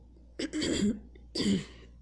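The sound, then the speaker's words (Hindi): Two short, rough coughs from a woman teaching a class, fairly faint, each a brief throaty burst with a pause between them and no talk over them. “I am really sorry, I had just got a cough.”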